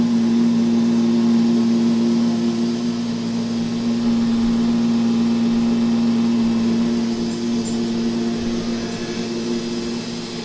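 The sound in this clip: Robot vacuum cleaner running: a steady droning hum with a strong low tone stays level for the whole stretch, with no breaks and no talk.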